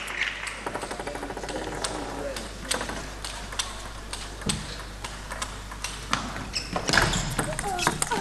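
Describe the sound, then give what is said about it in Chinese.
Table tennis rally in a women's team match, a serve followed by a forehand attack: many sharp, light ball clicks and paddle hits tick along under steady commentary, with a louder hit near the end. “又是一个发球抢攻，正手的爆冲。 好球。”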